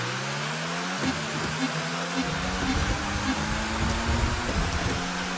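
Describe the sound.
Car engine in a mobile racing video game: a continuous buzzing whine whose pitch climbs gradually over several seconds, set against a broad steady hiss.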